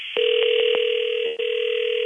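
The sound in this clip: Telephone line tone on an unanswered call: a click, then a steady electronic tone that holds to the end, broken by a few brief clicks.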